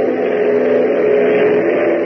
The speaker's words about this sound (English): Hop opens the throttle another notch, sending the DC-3 roaring ahead through the night sky.